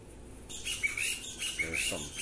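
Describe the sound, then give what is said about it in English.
Loud birds calling in the spring mating season, giving a few short, high chirps and tweets that repeat in uneven bursts over a soft background hiss. “We have some loud birds. How about that? It's the spring mating season”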